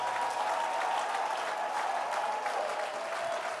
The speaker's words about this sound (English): Since our mouth cannot go that far because it's restricted, our hands are liberated. Put your hands together.